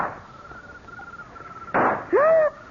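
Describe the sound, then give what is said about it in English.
A single sharp gunshot from a handgun, fired during a struggle in a house in a radio drama. One short, loud burst cuts across a thin steady tone and is followed at once by a brief voiced cry. “Oh, no. No, I'm shot.”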